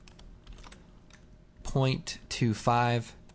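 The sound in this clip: Typing on a computer keyboard: a run of light, quick key clicks, after which a voice starts talking over the sound.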